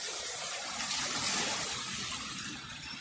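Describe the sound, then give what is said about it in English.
Water trickling and splashing from play features on a kids' island at a water park, heard as a steady, soft hissing wash with no voices. “great little island for the kids to play on here. All kinds of water features.”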